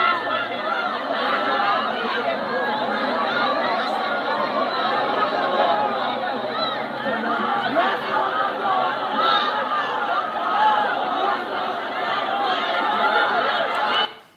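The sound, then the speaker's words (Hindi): A dense mass of voices from a rally crowd in Iran protesting against Pakistan, a continuous, fairly loud murmur of many people that holds steady and then cuts off at the very end. “Iran में लोगों की rally निकल रही है पाकिस्तान मुर्दाबाद की”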